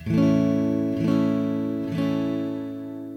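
A major chord strummed three times on guitar, each stroke landing about a second apart; the rich, bright chord rings steadily between strums and slowly decays after the last.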